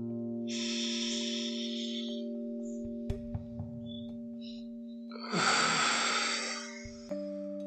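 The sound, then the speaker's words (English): Slow, deep breathing in and out during a guided relaxation: two long, airy breath sounds over sustained low, steady tones, with a few soft clicks and faint chirps in the pause between them. “You take those beautiful breaths in and out.”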